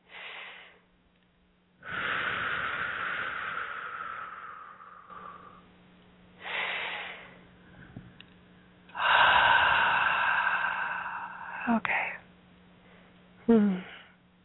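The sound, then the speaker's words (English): Slow, deep breathing in through the nose and out through the mouth, with a few long airy breaths and quieter pauses between them. “starting off with some nice deep breaths in through the nose and out through the mouth.”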